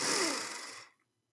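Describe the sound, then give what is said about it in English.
One deep, slow breath makes an airy rush that fades away in under a second, leaving silence. “we're going to take one deep breath in. Are you ready? In.”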